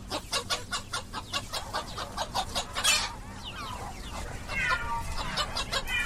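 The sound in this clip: Chickens cluck in a steady run of many rapid, rhythmic clucks, with a few louder, higher calls breaking in partway through.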